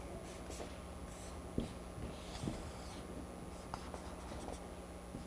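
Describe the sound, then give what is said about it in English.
Faint scratchy strokes of pictures being drawn on a board, several short uneven marks spread over a steady low hum. “You just love it when we draw pictures, don't you? Okay, there's Yeshua, and we'll draw some of his guys”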